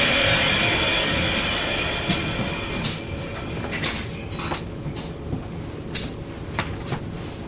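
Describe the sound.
Clicks and knocks come from a locomotive's battery compartment being opened: several sharp, short knocks in an irregular sequence over a steady low background hum.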